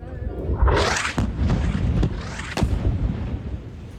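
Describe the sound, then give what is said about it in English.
Airstrike explosion hitting a desalination plant in Gaza's Sheikh Radwan neighbourhood: a heavy booming blast that swells into a long roaring rumble, punctuated by a few sharper cracking impacts. “This is the moment an attack targeted a desalination plant in the Sheikh Radwan neighbourhood. A mosque was also hit.”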